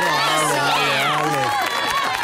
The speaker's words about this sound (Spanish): Póngale un aplauso de despedida. Aplausos.